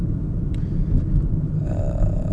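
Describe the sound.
Car driving, heard from inside the vehicle: a steady, dense low rumble of engine and road noise that stays even throughout, with no talking.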